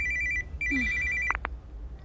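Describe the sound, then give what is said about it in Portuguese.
A telephone rings with a bright, warbling electronic tone in two bursts, then stops with a couple of sharp clicks. “Mãe, o seu telefone está a tocar.”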